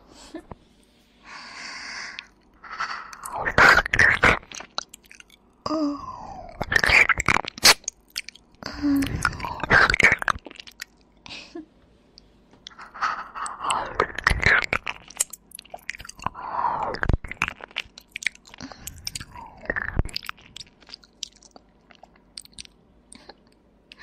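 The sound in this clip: Close chewing of newly bought candy: many irregular crunches, crisp mouth clicks and wet smacks in bursts, with breathy sounds between them.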